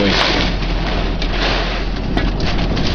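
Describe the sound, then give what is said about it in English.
Rain and wind-blown debris such as leaves and bits of trees pelting down during a violent storm, forming a loud, dense, unbroken roar that holds steady throughout. “It didn't look like rain to me. Okay. Oh, no, that's actually rain and debris. Leaves and trees.”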